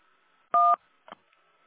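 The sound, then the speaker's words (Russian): Telephone keypad tones, star and then one, are pressed on an automated utility meter-reading phone line. One loud, steady two-note beep is followed by a much fainter, shorter blip, with near silence around them. “переведите телефон в тоновый режим. Для этого нажмите звездочку. Затем для ввода показаний нажмите единицу.”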